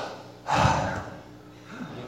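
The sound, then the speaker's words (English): A deep breath drawn during a church sermon: one breathy rush of air swells and fades over about half a second, followed by quieter, softer breathing. “Take a deep breath. Go.”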